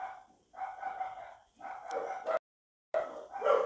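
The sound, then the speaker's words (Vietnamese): Dogs bark in clustered bursts of several sharp, fairly faint barks each. A short stretch of dead silence interrupts them before the barking starts up again. “Mấy con chó này.”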